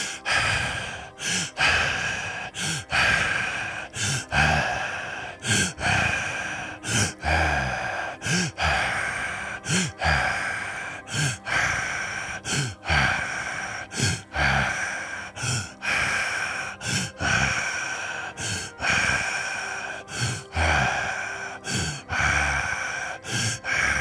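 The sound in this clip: Breathing during a guided breathing exercise, many loud in-and-out breaths following each other in a steady rhythm throughout, with no talk.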